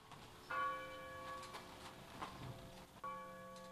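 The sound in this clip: A bell tolls at a 9/11 memorial ceremony in Shanksville, with two faint strikes, each ringing out in a long, clear, sustained tone over a quiet background.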